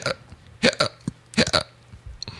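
Hiccups come as a few short, abrupt gulping bursts, some in quick pairs, with brief quiet gaps between them.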